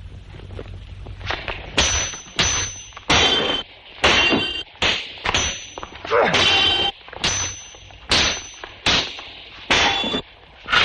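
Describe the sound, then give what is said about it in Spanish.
Steel swords clash in a duel with a count, ringing out in many sharp metallic clangs in an irregular rhythm, each strike a bright, loud hit with a short ringing tail and brief gaps between blows. “Los pelean con maestría defendiéndose y golpeando repetidas veces el acero de sus espadas.”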